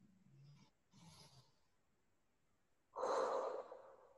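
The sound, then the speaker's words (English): Faint breathing from an audience at a Pentecost church service: a couple of soft breaths, a quiet pause, then a louder, airy breath that sounds like a collective sigh. “And so let us on this Pentecost day breathe together. Take in a breath.”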